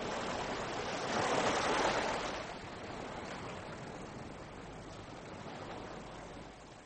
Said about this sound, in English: Let me lie here. Listen to the waves. Something about them. That sound.